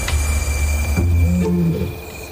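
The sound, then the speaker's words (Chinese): Deep roaring from lions answering played-back lioness roars, a low, rumbling roar with strong resonant tones that swells and fades over a couple of seconds, heard alone without voices. “我们播放的吼叫声越多，他们就越兴奋，然后开始做气味标记，回应，寻找这只母狮。”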